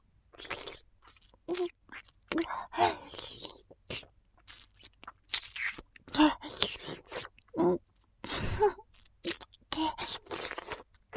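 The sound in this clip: Chewing on matsutake mushroom, heard alone as many irregular wet, crunchy bites and mouth sounds in short bursts.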